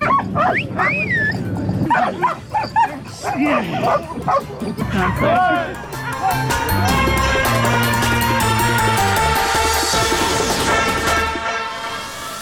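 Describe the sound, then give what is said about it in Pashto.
Mine-detection dogs at a UN training centre in Kabul, where 200 dogs are trained, bark and yip repeatedly with some whimpering whines, while people talk over them. “د ملګرو ملتو په یو مرکز کې په کابل کې 200 سپی د ماینونو د پلټنې لپاره روزل کیږي. د مرکز ته مو هم ورولو.”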